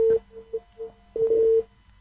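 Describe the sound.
Telephone tones right after a phone call suddenly drops: a steady mid-pitched beep sounds in a few short pulses of varying loudness, then a longer held tone, faint and alone.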